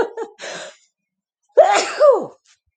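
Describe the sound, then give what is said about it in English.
A sneeze bursts out sharply in two quick parts, loud and sudden, after a few brief, softer breathy sounds. “Sorry, I usually sneeze in threeses, sneezes.”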